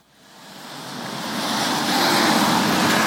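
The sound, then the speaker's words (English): Street traffic at the corner of Avenue Road and Bloor Street in downtown Toronto, a broad rushing roar that swells up from near quiet and then holds steady and loud. “I'm standing at the corner of Avenue Road and Bloor Street, just north of Queen's Park.”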